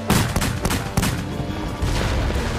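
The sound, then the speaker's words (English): Automatic gunfire rattles out in sharp, rapid bursts, several shots in quick succession over a dense, rumbling background. “Low and left. Selecting auto fire. Damn it. Now it'll be certain death.”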